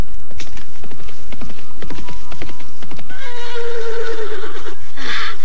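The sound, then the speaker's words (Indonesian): A horse gives a loud, long, wavering neigh. It follows a run of clopping hoofbeats and then fades out. “Kuda baik, kuda baik. Kau agaknya masih mengenalku.”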